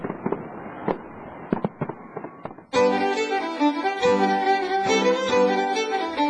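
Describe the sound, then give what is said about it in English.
Fireworks explode over Edinburgh Castle with many sharp bangs and crackles, then a sudden louder, sustained, dense wash of sound that keeps the bursts going. “There were fireworks last night. Tonight there'll be 20 tons fired from Edinburgh Castle.”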